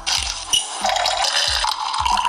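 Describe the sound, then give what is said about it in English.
Hot coffee is poured into a cup as a steady splashing liquid stream, broken by a few soft gulping glugs as it flows. “You wake up in the morning, pour yourself a hot cup of coffee,”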